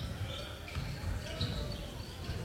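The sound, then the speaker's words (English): A basketball is dribbled during a game, with repeated dull bounces under steady crowd noise and a voice talking. “Still on the dribble.”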